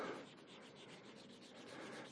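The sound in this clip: A rubber eraser rubs out writing with a steady, scratchy friction sound made of quick back-and-forth strokes, continuous and fairly quiet throughout.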